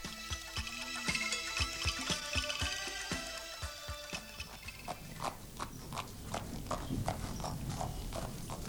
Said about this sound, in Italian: il carro su cui viaggiava il Signore insieme con Akrura e Balaram si dirigeva velocemente verso le sponde della Yamuna